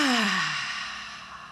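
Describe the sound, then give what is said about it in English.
A single long, breathy exhale during a guided deep-breathing exercise. It starts with a brief voiced, falling tone, then becomes soft airy rushing that fades slowly. No talk is heard. “So we're going to start just with two deep breaths. Take a breath in. Now exhale for twice as long.”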